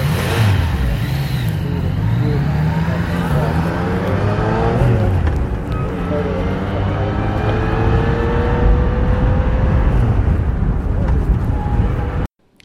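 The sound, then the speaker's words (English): A motorcycle engine with a stock exhaust revs, its pitch climbing and falling through several throttle blips in a loud, continuous run before cutting off abruptly at the end. “recording probably doesn't do great, great justice to the bike, but again, gives you an idea what it sounds like. Stock exhaust setup,”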